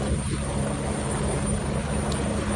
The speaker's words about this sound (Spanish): Así suena como recoge el agua este helicóptero para poder acudir al incendio y dejarla caer.